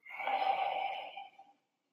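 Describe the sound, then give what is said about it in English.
A single exhale through the mouth during a guided breathing exercise: a smooth, breathy rush of air that swells quickly, holds, then tapers off and ends in silence. “And now exhale through your mouth.”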